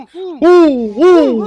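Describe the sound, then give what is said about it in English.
A human voice imitates happy owl noises with a purring, chirping call: two warbling vocal chirps that rise and fall in pitch, loud and close, with a short purring murmur before them. “Happy owl noises. It's kind of like a purr chirp.”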